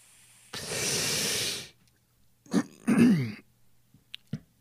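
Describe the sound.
A voice imitates a drag on a cigarette: a long, breathy hiss of drawn-in air, then a couple of short throaty exhaled puffs and a faint click at the end.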